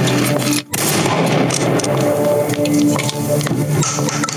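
Rifle gunshots during a fight with enemies hidden in trees, a few sharp cracks scattered across a dense, constant roar of noise.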